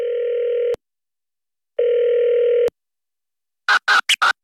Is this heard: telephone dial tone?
yes